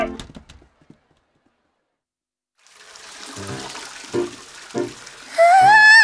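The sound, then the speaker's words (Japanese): Hot water gushes from a lion-head spout into a Roman-style bath, a steady hiss that starts after a few clicks and a silence, with a few louder splashes and a high wavering tone at the end. “なんかの口からお湯が溢れてるよ。”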